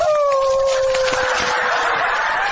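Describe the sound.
A wolf's howl, one long loud sustained tone that glides gently downward in pitch and holds with no break.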